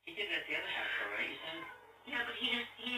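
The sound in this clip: A person's voice imitates a cat meowing at a door, producing two drawn-out, nasal meow-like calls separated by a short pause.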